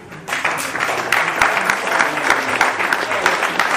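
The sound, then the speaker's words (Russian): Audience applause at a gathering of Vaishnavas before a children's play breaks out after a brief quiet start, then swells into a loud, dense, sustained patter of many clapping hands. “Давайте пригласили аплодисментами.”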